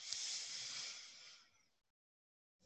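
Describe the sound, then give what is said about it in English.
A deep breath drawn in during a guided exercise: a soft, airy hiss that holds steady and then fades over about a second and a half, followed by a brief silence before another breath begins at the very end. “Breathe in.”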